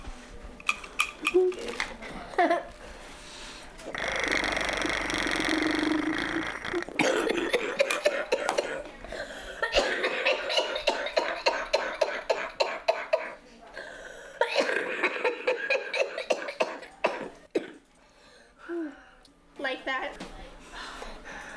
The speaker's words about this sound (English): This is a flutter, and I blow into it like this, and it like jiggles my lungs and makes me cough.